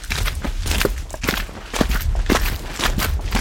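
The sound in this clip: Footsteps of people walking along a mountain trail, many steady, crunching steps in an even rhythm, with no talking.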